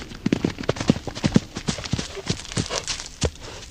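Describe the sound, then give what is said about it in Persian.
Hoofbeats of a horse ridden at speed toward an opposing army: many sharp, quick clops in uneven clusters, moderately loud over a soft background hiss. “او سوار بر اسب می شود و با سرعت به سوی سپاه امام می رود”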